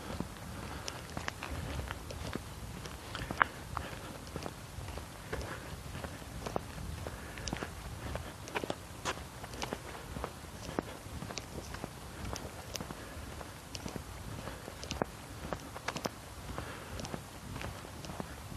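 Footsteps of someone walking along, a steady stream of many soft, irregular steps with scuffing and patter, moderately faint and continuing without pause.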